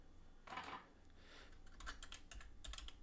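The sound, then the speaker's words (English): Computer keyboard typing, with irregular bursts of sharp clicking keystrokes at moderate volume over a low background hum; no voices. “Let me go ahead and type that in.”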